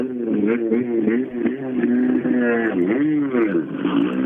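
A rally car's engine revs hard as it sets off on a special stage, a loud harmonic drone that wavers up and down in pitch and continues throughout.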